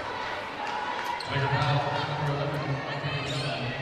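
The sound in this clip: A basketball is dribbled on the court during a women's game involving Grand Junction, with a few bounces under a steady crowd murmur and voices talking over it.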